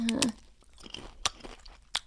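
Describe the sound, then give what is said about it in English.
Quiet, crisp crunches of someone biting and chewing crunchy food seasoned with pepper and lime: a few sharp crackling bites spread over two seconds, with softer chewing noise between them. “Wait till you take a bite.”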